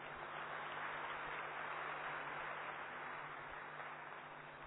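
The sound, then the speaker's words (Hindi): Applause from a seated audience welcoming a respected woman speaker before a safety class at an Om Shanti gathering: steady, dense clapping that blurs into a continuous hiss, fairly faint and even throughout, with no voices. “शीलो आदरणीय शीलो बहन जी को हम अपनी करताड़न से स्वागत करेंगे।”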